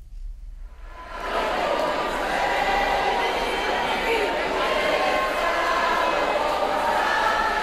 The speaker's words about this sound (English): And this is the sound of thousands of Venezuelans now living in the U.S., many of them from South Florida, in New Orleans this past weekend to vote in their country's presidential election.